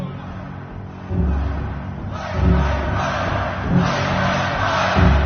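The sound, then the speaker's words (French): An audience protests at a Doors rock concert, a crowd shouting and jeering in a sustained roar that swells several times. “Contestation dans le public. Ils ne veulent pas qu'ils parlent. Ils veulent que ça joue, qu'ils fassent le show.”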